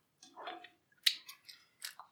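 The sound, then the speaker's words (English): Chewing of juicy food, soft and wet, comes in a few brief, faint bursts with moist smacking and crunching between short silences. “Definitely edit out some of these eating noises.”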